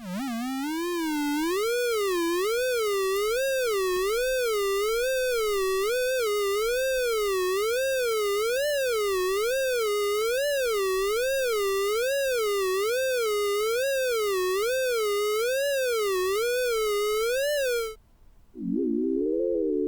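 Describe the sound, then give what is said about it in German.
Sonified front crawl swimming rendered as a softer, less shrill electronic tone that warbles up and down in a steady, regular rhythm, about once per second, for roughly eighteen seconds before cutting off, with a brief final fragment. “als zweites hört ihr dann gleich das Kraulschwimmen vertont mit der etwas sanfteren Variante, wo die Töne nicht ganz so schrill sind.”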